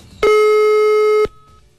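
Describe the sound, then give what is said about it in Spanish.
A single steady electronic telephone line tone sounds while a number is being dialed. It holds one even, buzzing pitch for about a second, alone and fairly loud, then stops abruptly. “Ay, no, llamemos de nuevo. Ahí está marcando de nuevo.”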